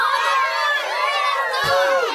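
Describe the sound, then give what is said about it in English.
Many people shouting and cheering at once, a dense, continuous mass of high, excited voices that stays loud for the whole clip. “why is everybody shouting like that?”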